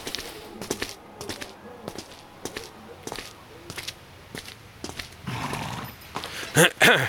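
Horse hooves clip-clopping as a horse-drawn growler cab stands in a narrow alley in London: many evenly spaced hoof knocks, growing busier toward the end and closing with a brief whinny.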